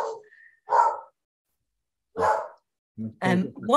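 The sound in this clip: A dog barks in a few sharp, separate bursts with short silent gaps between them, fairly loud and mid-pitched, the last barks coming closer together.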